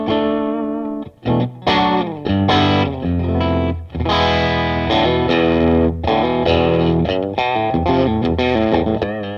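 Distorted electric guitar played through a small Marshall tube combo on its single coil pickup, a series of loud, sustained chords with a gritty crunch, struck one after another with short gaps and ringing decays.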